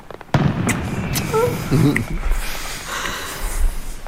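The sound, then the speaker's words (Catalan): Fireworks rockets go off in a few sharp bursts and crackles, with thin whistling tones between them, heard together with voices. “Has escoltat això? Sí. Són coets? O és el meu cor? Són coets.”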